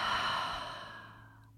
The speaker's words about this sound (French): Inspirez, expirez.